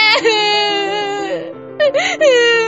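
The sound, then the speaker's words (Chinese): A young girl crying and wailing loudly over a lost pet silkworm, a sustained, quavering, high-pitched wail that breaks off briefly and then resumes in sobbing bursts. “哭得这么伤心？”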